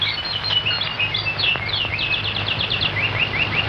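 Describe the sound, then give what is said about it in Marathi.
Birds chirp in quick, high-pitched runs of tweets, some close together and some spaced apart. The calls stand out over a steady low rumble. “पक्ष्यांची किलबिल”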